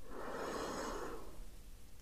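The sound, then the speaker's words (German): A slow, deep breath in during a guided meditation, soft and airy, lasting about a second before it fades into near silence. “Atme tief ein”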